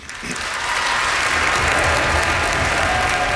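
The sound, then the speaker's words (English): An audience at Heinz Hall in Pittsburgh applauds to welcome a violinist, the clapping quickly building into a loud, dense, sustained ovation that holds steady to the end. “Will you please join me in giving a warm Pittsburgh welcome to violinist Randall Gooseby.”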